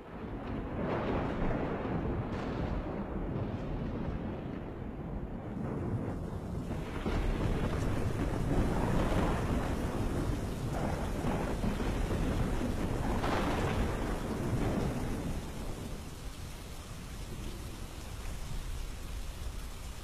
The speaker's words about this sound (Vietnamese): Đột nhiên một tiếng sét nổ đánh đùng, cả hai ông cháu giật thót cả mình. Trời ngoài kia bắt đầu đổ mưa.